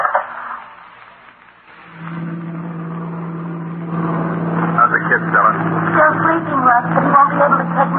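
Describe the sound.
A car engine drones through a long road drive, a low, constant hum that rises in level partway through and continues under people talking.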